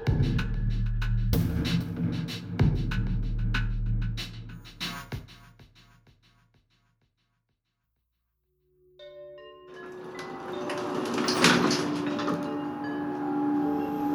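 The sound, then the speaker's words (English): Elevator in a replica of the Space Needle: clunking and rattling, then a pause of near silence, then a steady mechanical hum with a whooshing swell. “How long do you think it takes for this elevator to get to the top?”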